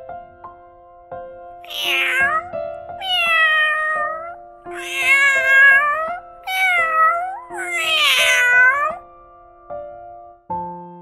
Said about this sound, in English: cat.